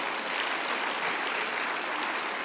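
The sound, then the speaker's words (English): Applause from a church audience, many hands clapping in a dense, steady crackle that holds at an even loudness throughout, with no voices. “Clap your hands.”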